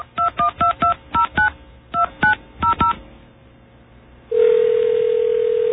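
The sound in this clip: Touch-tone dialling of a phone number that includes the area code: ten short beeps in quick uneven groups, followed after a pause by a loud, steady, continuous line tone.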